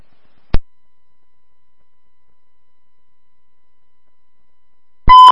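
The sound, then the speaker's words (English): A short, steady electronic beep tone with a bright, buzzy edge. It comes after a single sharp click and several seconds of silence. “Beep.”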